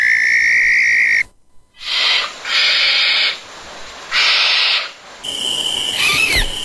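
Harsh, hissing screeches of a barn owl come in several breathy bursts, each about a second long and separated by short gaps.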